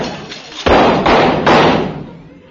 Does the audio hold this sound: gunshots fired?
yes